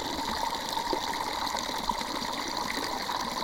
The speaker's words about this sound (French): si là le micro il est dans l'eau. Ah, mais là, c'est bien. Après là c'est aussi plus fort, le jet d'eau est plus fort quand même.